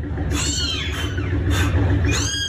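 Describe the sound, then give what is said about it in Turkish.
Newborn kittens trapped under the floor of a house meow in three high, thin, wavering cries over a steady background hum. “Sesleri duyulan yavru kediler bulundukları yerden çıkarılamayınca itfaiyeye haber verildi.”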